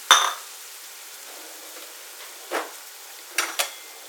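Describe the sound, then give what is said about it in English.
Peas tipped into a hot pan hit with a sharp burst of sizzling, then settle into a steady hiss, with a few light clinks of the pan near the end. “All right, those are my peas going in. That's a nice sound,”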